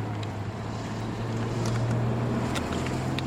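Steady low engine drone and wind noise from a car driving along a hillside road in northern Iraq at dusk, a continuous even hum with no breaks.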